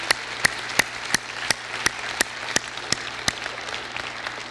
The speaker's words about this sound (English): So would you give all the special ladies in our life just a great big giant hand and thank them for all they do.